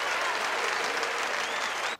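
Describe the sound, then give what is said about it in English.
Applause fills a church after a performance: dense, continuous clapping from many hands at an even, moderate level that stops abruptly at the end. “The Monsignor claps.”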